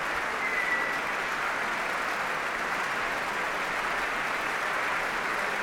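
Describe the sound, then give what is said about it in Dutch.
Sustained applause from a standing ovation fills a concert hall after a performance: dense, even clapping that holds steady at a constant level throughout, with no voices standing out. “Ja, een staande ovatie in het Concertgebouw voor Dima Slobodenjuk.”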